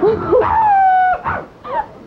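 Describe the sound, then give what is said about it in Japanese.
A person imitates a dog with a few whiny, drawn-out yelps. One long whimpering tone slides slowly downward, and shorter yips come before and after it. “怖いワンちゃんだよ。 わらわの犬はね、もっとかわいいけどね、その鳴き方は気に食わん。”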